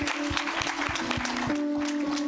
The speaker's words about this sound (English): Yes, give them a big hand of welcome.